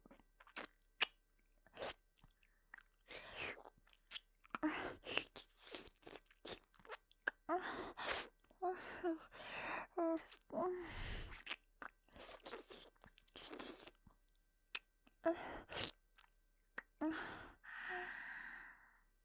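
Soft, wet chewing and biting sounds of ears being eaten: many sharp mouth clicks, crunchy nibbles and smacks in an irregular rhythm, mixed with breathy sighs, all faint.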